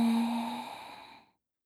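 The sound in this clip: A single long, deep breath during a guided relaxation exercise, steady and breathy at first, then fading out after about a second, with no talk.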